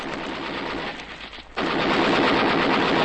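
A radio-drama gunfire sound effect: a dense, loud, continuous machine-gun rattle of rapid shots that thins out briefly near the middle, then comes back louder and steady, with no talk.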